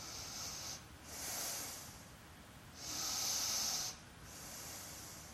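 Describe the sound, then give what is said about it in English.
Slow, deep breathing during a yoga stretch: long, soft airy breaths rise and fall in a steady rhythm, faint and hissy, with no talk. “a couple more breaths here.”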